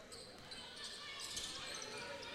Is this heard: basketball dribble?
yes